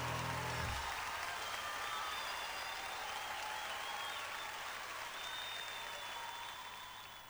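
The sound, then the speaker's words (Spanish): Applause from an audience, a steady, dense wash of clapping that stays even throughout and then tapers slightly toward the end. “fuertes los aplausos para Juan.”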